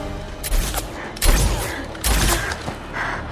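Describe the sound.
A soldier fires a gun: a few sharp, booming shots crack out at uneven gaps over a steady, noisy rumble, with fainter knocks between them.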